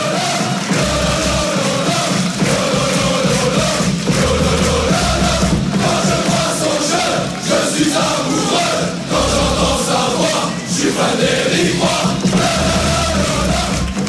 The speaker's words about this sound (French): tu es le seul qui a une chanson à sa gloire, et c'est pas n'importe quelle chanson on écoute.